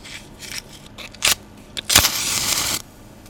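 A candle being lit by hand during a children's church service: a short scraping strike, then a brighter crackling, hissing flare lasting under a second, with a few faint rustles around it.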